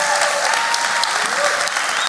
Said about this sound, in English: So do me a favor, put your hands together one more time and let's welcome our church family.